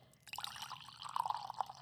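Faint liquid dripping and trickling as washed Sumatra coffee is poured, a soft, uneven splashing that grows slightly fuller toward the end, with no voices.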